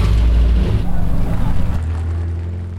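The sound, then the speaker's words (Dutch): A 1953 vintage vehicle's engine starts with a loud, deep rumble that shifts partway through and then settles into a steady low idle. “Kun je hem eens een keertje even starten voor de luisteraar? Hoe dat nou eens klinkt, zo'n oude oldtimer. Hij gaat starten hoor.”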